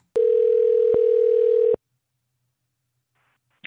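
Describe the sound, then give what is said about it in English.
Ringback tone of a telephone call going through: one steady, mid-pitched tone lasting about a second and a half, with faint clicks, then silence. “try and get Johnny on for 15 or 20 minutes, but it went to his voicemail, which is weird because he just texted me. Let's try that again.”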